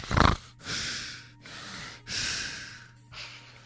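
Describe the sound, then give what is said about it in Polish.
Heavy, labored breathing: a series of loud panting breaths, opening with a sharp, low snort-like puff and followed by several long, airy breaths with short gaps between them. “Co, że ja za dużo sapię?”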